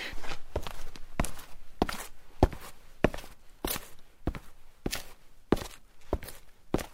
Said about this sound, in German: hat der Geräuschemacher vorher noch etwas Sand auf den Boden gestreut. Damit wird hörbar, diese Person ist draußen unterwegs. Jetzt kommt der Damenmann entgegen.